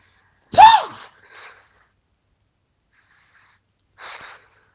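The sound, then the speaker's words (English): Heavy breaths drawn in and out through the mouth: one loud, voiced, gasping breath comes first, then a softer breath, and after a long silence a further moderate breath follows. “Breathe in and out 5 times heavily. With your mouth.”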